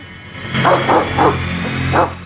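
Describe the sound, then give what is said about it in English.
A dog gives four short, high yips. It stands on its hind legs at a bloody scene. The first three yips come in quick succession, then a brief pause before the last one. The yips are fairly loud over a steady low hum. “The dog is up on its hind legs, lapping at the blood.”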